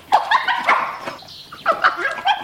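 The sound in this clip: Dog barking and yipping urgently to lead people somewhere, many short, high, excited barks in quick bursts with a brief lull in the middle before another run of yips.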